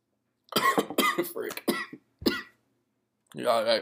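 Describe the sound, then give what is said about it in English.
Several harsh coughs and throat-clearing bursts come in quick succession and are fairly loud, separated by short silent pauses, with one longer, rougher, voiced burst at the end. “I wish I was better at audio editing so I could edit out that cough.”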